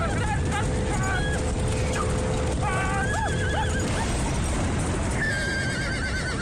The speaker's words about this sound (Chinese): 此刻，徐世铎纵马如离弦之箭，离红旗越来越近。